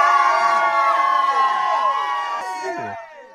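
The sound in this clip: Crowd cheering sound effect fired from a soundboard: a loud, steady wall of cheers and whoops that thins and cuts off near the end.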